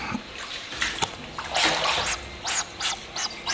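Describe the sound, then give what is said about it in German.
Water splashing and sloshing in a bathtub as someone washes, soft bursts of splashes and trickles coming in irregular waves, fairly quiet. “Das ist zwecklos. Dann kann ich mich jetzt auch waschen.”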